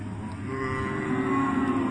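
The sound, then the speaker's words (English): Cattle moo in one sustained, low, harmonic call that swells gradually louder to the end, with the cows held in a small herd. “we have a few cows here. We had only a few, now we have a few more.”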